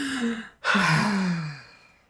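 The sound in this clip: A wheezy deep breath: a soft breathy sound, then a short gap, then a loud, long breath carrying a low, rasping voiced tone that slowly fades. No words are spoken.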